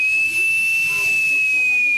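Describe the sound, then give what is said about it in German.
The emergency warning whistle of a compressed-air breathing apparatus, tested with its cylinder filled to 330 bar, sounds as a steady, piercing high whistle over a broad airy hiss, unbroken from start to end. “Dann muss man noch testen, ob die Notpfeife geht.”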